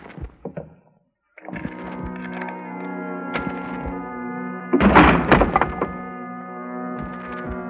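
A door's spring lock is opened with a key, giving a few sharp clicks and thunks, then a denser cluster of knocks, over a steady tonal drone.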